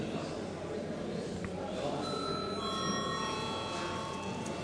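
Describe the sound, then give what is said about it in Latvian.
A chairman's bell rings in a parliament chamber before a vote: steady, high electronic ringing tones start partway through and hold to the end over a continuous murmur of voices. “Lūdzu zvanu.”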